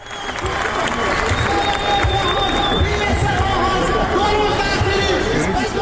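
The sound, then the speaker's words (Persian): Crowd of protesting citizens gathered on the dry bed of the Zayandeh Rud river in Isfahan: a dense, continuous mix of chatter, shouting and some clapping and cheering, loud and steady throughout. “این صدای شهروندان اصفهانی است که بر بستر تفتیده و خشک زاینده رود خیمه زدند.”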